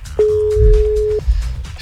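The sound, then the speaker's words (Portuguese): A telephone ringback tone heard while a call is placed: one steady, mid-pitched beep lasting about a second, then quiet line noise. “Chamando. Será que vai atender?”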